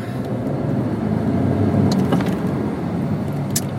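Steady low rumble of engine and road noise from inside a car driving through Sunday traffic on a delivery run, continuous and fairly loud, with a few faint higher clicks.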